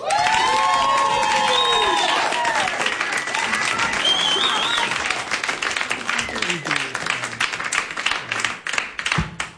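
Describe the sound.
Applause and cheering from a concert audience after a duo's song: dense, loud clapping with shouts and whistles early on, thinning into looser, more scattered claps toward the end.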